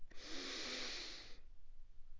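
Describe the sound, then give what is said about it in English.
One long, deep inhale through the nose makes a soft, steady, airy hiss for over a second. It stops abruptly and near silence follows. “just kind of inhale nice and deep, just hold for a couple of seconds, and then exhale”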